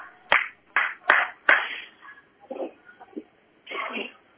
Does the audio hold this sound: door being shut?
no